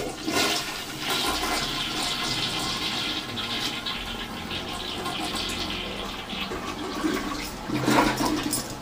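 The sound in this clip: A toilet flushes with a continuous rushing roar of water that holds steady and swells briefly near the end, with no talk over it.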